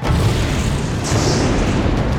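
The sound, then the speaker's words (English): A massive ball of fire bursts from a king's throat and rockets into the air: a loud, dense roaring rush of flame that holds steady for about two seconds, with no speech. “A massive ball of fire burst from his throat. He tilted his head up so that it rocketed into the air.”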